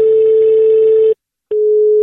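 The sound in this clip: Telephone dial tone heard just before a prank call: a loud, steady, buzzy hum that breaks off for a moment of silence, then resumes as a softer, cleaner tone.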